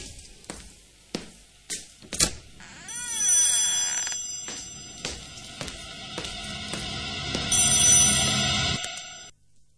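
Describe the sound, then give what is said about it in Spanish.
A telephone rings: a few sharp clicks and knocks come first, then a long, high, steady ringing tone with layered bright overtones holds for several seconds before cutting off. “Están llamando al teléfono.”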